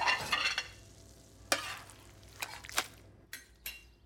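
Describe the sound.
Scrambled eggs stirred and frying in a pan: a soft, steady sizzle under quiet stirring, broken by a few sharp scrapes and clinks of the utensil against the pan.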